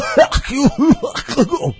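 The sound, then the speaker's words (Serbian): Guttural, cough-like throat-clearing made by a voice imitating the sound of the Dutch language, a quick run of rasping, moaning syllables whose pitch rises and falls over about two seconds. “ljudi koji umeju da kašljem imitiraju holandski jezik. Evo ja recimo mogu.”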